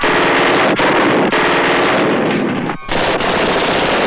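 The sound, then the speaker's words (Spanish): Machine guns fire through apartment windows in a shootout with police: loud, dense automatic fire that runs almost continuously, broken by a few very short gaps. “disparan con metralletas a través de las ventanas.”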